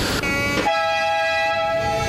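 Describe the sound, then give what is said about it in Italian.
Steady rumble and bright electric whine of a metro train running from Brin to Di Negro station in Genoa on an elevated bridge above old tracks, its tonal hum shifting early on, then holding constant without voices. “per il progetto Genova, vi fa così, vi fa andare in metropolitana per la prima volta. Stiamo tornando da Bring, dalla stazione di Bring a Di Negro”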